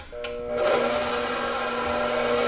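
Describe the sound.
An electric mixer whirs through dry baking ingredients. After a brief click, the steady motor drone starts abruptly and holds at an even level to the end.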